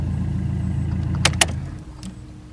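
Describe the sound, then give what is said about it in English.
A car's engine rumbles low and steady on a drive from Turvey into central Milton Keynes, with a couple of sharp clicks partway through. “I'm just getting in the car. I'm going to drive from Turvey, from the new signs which say welcome to Milton Keynes, and I'm going to drive to what I call Milton Keynes, which is where the shops are, to see how long it takes.”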